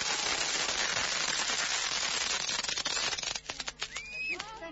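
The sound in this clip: A fireworks salute goes off in a thick, rapid crackle of many pops. It then thins into scattered louder bangs, and a rising whistling tone streaks through near the end.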